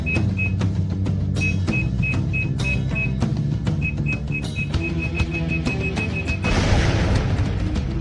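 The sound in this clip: Bomb blast beneath a bank vault: a run of short, high electronic beeps over a low musical bed, then a loud, broad roaring blast that swells and holds near the end.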